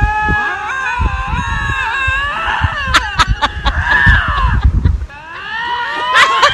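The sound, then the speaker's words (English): Two lynx screaming at each other in a territorial dispute beside a road: drawn-out, wavering high yowls that overlap and bend up and down, broken by a few sharp clicks. The yowling stays loud throughout. “He caught these two lynx at the side of a road, and they were having a territorial dispute.”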